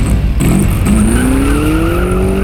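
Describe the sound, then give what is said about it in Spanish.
A car moves off in first gear, its engine note climbing steadily in pitch as it accelerates. The whine is loud and continuous over a rumbling low end. “El auto está en marcha. La vieja adelante. Mi pistola no la deja. Y atrás, Paula. Primera bajo el pie.”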